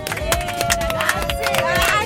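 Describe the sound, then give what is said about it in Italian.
Applause during a radio birthday interview with a group of friends: rapid, steady clapping with voices of the crowd mixed in, fairly loud throughout. “Molto bene, applausi anche da fuori per questo bellissimo”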